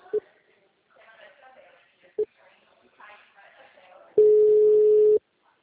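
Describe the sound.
Telephone tone after a dropped call: two short beeps, then a steady mid-pitched tone holding for about a second, with faint talk in between.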